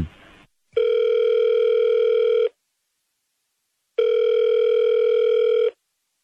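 Ringback tone of an outgoing call placed from a mobile phone: two long, steady, even-pitched tones of nearly two seconds each, separated by a silent gap.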